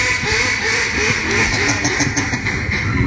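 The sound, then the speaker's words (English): Raspy quacking from a hand-blown duck call used as a mystery sound in a guessing game: a loud, dense, continuous run of buzzy quacks filling the whole clip without pause. “we know it's a duck call”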